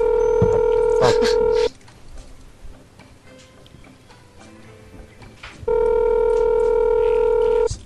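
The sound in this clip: Telephone tones as a number is dialed for a call: a steady, loud electronic tone over a low hum, then a quiet stretch, then a second long tone of the same pitch.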